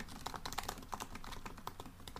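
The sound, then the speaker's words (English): Faint typing on a computer keyboard, with many light key clicks tapping in an uneven rhythm over a low, steady background hiss. “I'm looking it up right now if you hear me typing.”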